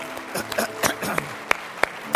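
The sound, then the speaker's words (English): A church audience applauds in praise of God at the close of a service. The clapping is uneven and scattered, with a few sharp, louder claps standing out toward the end. “Would you applaud the greatness of our God today and thank Him?”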